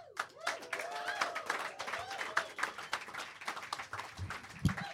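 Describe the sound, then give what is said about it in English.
Studio audience applause welcoming a new announcer onto the stage: dense, steady clapping with a few raised voices cheering near the start, holding at a lively level throughout. “So please, Put your hands together for the new announcer that we handpicked for a global audience, a man who has been around the world, the well-traveled announcer.”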